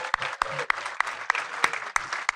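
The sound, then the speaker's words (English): Audience applause at a year-end film wrap party hosted at a cinema: steady, evenly spaced sharp claps stand out over a continuous wash of crowd clapping, moderately loud, with no voices. “Round of applause for Regal Cinemas.”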